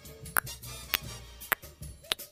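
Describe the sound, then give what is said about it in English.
A clock ticking: four sharp, evenly spaced ticks a little over half a second apart, faint against a low steady background. “Is that a clock? Oi, something like that.”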